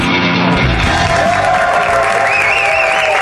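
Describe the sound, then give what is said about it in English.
A studio audience applauding and cheering, a loud, dense, continuous wash of clapping with whoops and raised voices throughout. “That studio audience you just heard, that's our studio audience.”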